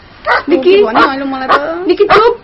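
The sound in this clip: Dog barking in a quick, loud string of high yips with tonal whining between them, several sharp onsets close together.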